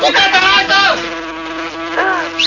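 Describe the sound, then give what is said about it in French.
Flies buzz in a loud, high, whining drone that wavers in pitch, with a few swelling passes. “Oh, les mouches arrivent”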